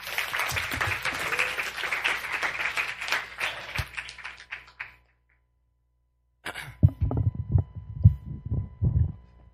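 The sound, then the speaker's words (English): Audience applause welcomes a high school junior coming up to give a testimony at a church baptism and confirmation service. Dense clapping gradually thins and fades out, followed by a pause and then some low, irregular bumps. “So let's welcome Daniel as he comes to share.”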